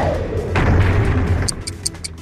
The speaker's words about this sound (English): This is the sound of a coronal mass ejection, a CME, exploding from the sun.